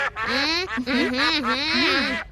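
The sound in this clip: Ducks quack in a continuous nasal, warbling chatter whose pitch wavers up and down. It goes on for about two seconds with no clear pause.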